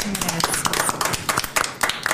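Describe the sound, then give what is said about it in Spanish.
Applause for the cast of a stage play, with many quick, uneven claps overlapping and people talking. “Muy bien, un aplauso para todos.”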